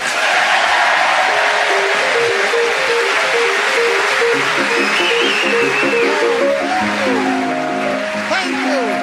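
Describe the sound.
Chopin's Minute Waltz plays as theme music: quick, bright piano runs and repeated notes over a dense, noisy wash. The sound stays loud and steady throughout.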